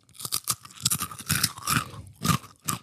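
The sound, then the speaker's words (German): Crispbread topped like a pizza is bitten and chewed, a series of loud, dry crunches in an irregular rhythm with short pauses and no talk. “Man könnte eine Knäckebrotpizza draus machen. Absolut. Jetzt müssen wir mal ein Stück probieren.”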